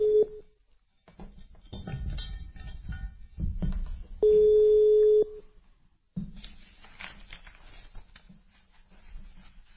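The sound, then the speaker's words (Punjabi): Ringing of a phone call placed to a radio caller: a short tone at the start, then one steady ring of about a second, with a voice talking before and after it. “ਆ ਲਓ ਜੀ ਮੈਂ ਤੁਹਾਨੂੰ ਕਾਲ ਕਰ ਦਿੱਤੀ ਜੇ”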